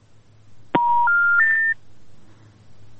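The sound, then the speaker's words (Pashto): A telephone line goes dead with a sharp click and then three steady electronic tones, each higher than the last, loud above a low, constant hum, followed by near silence. “د تلیفون کرخه یې پرې شوله.”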